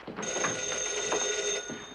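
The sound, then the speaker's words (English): A telephone rings in a family home: a steady, bright, continuous bell trill that starts quickly and keeps going for nearly two seconds with no talk over it. “answers the phone.”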